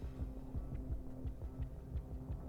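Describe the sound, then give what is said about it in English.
Steady rhythmic chugging of a piston machine pumping something, in a room lined with many machines. Many low thumps repeat at an even pace over a constant low hum. “The chugging of some sort of piston. Pumping something.”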